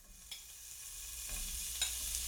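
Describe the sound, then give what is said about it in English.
Chunks of polar bear meat are prodded in a pot over a fire with a wire fork, giving a faint, steady sizzling hiss broken by a couple of light clinks. “He turned his attention to the task at hand and prodded the chunks of polar bear in the pot over the fire.”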